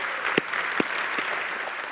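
An audience applauds to welcome Colonel Lee Ellis onto the stage at a Burnt Hickory Independence Day celebration. The clapping is dense and steady, with a few sharper claps standing out.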